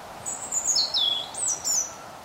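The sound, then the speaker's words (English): Chiffchaffs and robins sing in autumn woodland: a few high, thin, whistled phrases, one sliding downward in pitch, over a faint steady background hush. “walking through the reserve's woodlands, I hear chiff-chaffs, robins,”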